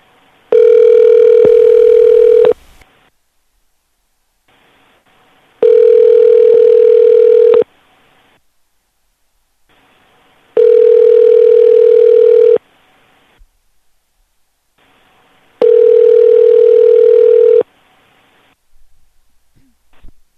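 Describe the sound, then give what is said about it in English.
A telephone ringback tone sounds while a call waits for someone to pick up: four steady, evenly spaced rings, each lasting about two seconds with roughly three seconds of quiet between them. “Let's try it again. See if they'll pick up. What? Never heard of the name. I wish somebody would pick up.”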